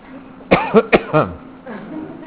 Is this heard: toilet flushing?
no